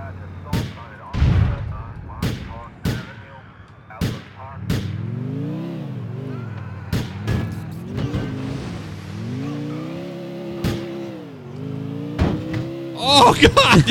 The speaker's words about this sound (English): I'm going to drop some grenades real quick here.